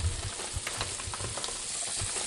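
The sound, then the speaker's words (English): Onion and bay leaf sautéing in olive oil for a chile relleno filling, giving a faint, steady sizzle with scattered crackles and soft low knocks throughout. “starting with sautéing the onion in olive oil. So he's throwing some bay leaf into the onion as it's being sautéed.”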